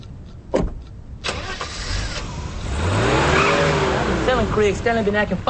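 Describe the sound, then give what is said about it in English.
A car door clunks twice as a man gets into his car, then the engine starts and revs, its pitch rising and swelling into a steady loud roar. “A neighbor gets in his car.”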